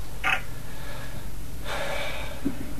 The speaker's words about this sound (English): I got to take a breath.